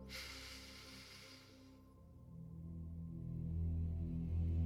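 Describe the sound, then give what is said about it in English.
A deep breath drawn in through the nose during a tapping meditation for relaxation and sleep: a soft, airy hiss lasting almost two seconds, followed by a low, calm musical drone that slowly grows louder. “Take a big deep breath in through your nose.”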